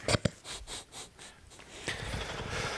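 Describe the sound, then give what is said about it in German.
Snorting straight into a microphone: two sharp, loud nasal bursts at the start, then softer rhythmic breathy puffs and a steadier hiss of breath. “Schnaubst da in das Mikrofon.”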